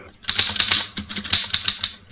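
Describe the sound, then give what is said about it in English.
Rapid typing on a mechanical typewriter shown in a crime museum: many sharp, clattering key strikes in an uneven rhythm, fairly loud and with no voices. “Here's a typewriter. Your secretary uses one. Perhaps your son or daughter write their school essays on a machine like this.”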